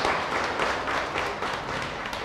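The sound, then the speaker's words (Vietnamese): Audience members clap their hands hard during a Buddhist dharma talk, producing dense, loud, steady clapping that continues without a break. “Cho nên vỗ mạnh lên đặng trị cái con cái phiền não si.”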